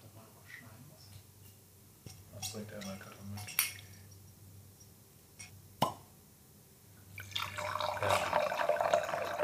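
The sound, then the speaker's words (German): Wine is poured into a glass, building to a steady, bubbling liquid splash near the end, after a few brief knocks and plops. “So, der nächste Wein ist eingeschenkt”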